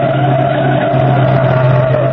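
A car skids with a continuous, loud tire screech as it is forced toward the curb. The squeal holds steady and unbroken throughout, with no voices.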